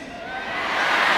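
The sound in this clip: Crowd at a political campaign rally yelling back in unison, a dense wash of many voices that swells steadily louder over a brief moment.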